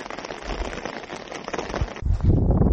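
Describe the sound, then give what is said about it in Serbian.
Rain falls on a snow-covered ski centre that is still waiting for its first skiers, a dense, steady hiss of drops that thickens into a heavier, lower patter for the last second. “Ovdje za sad još nema turista, nema skijaša, ima snijega, ali pada kiša.”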